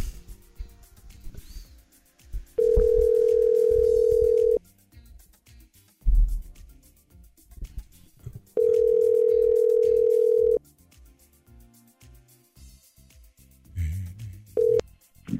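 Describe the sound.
Telephone line tone while calling a radio listener: two steady tones of about two seconds each, separated by a pause with faint clicks and rustle, then a final tone cut short.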